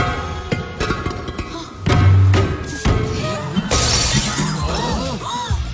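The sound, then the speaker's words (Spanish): A vase smashed by the bridesmaid at a wedding: a heavy thud, then a loud, bright shattering crash that scatters into lighter tinkling fragments. “Hay que romper el jarrón. La dama de honor lo rompe. Simboliza la felicidad para el novio y la novia. Dale fuerte.”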